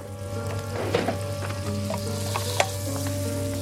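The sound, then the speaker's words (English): Butter and onions sizzle in a pan on a stove as a photo is sautéed in it, with stirring. A steady, bright frying hiss is broken by a few sharp scraping clicks. “On the Télévision Éducative set, he sautés the photo with butter and onions”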